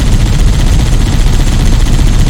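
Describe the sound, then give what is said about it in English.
Rapid, continuous gunfire in a video game, a dense, unbroken stream of loud shots that blur into a steady roar with no pauses. “Do some shooting right now.”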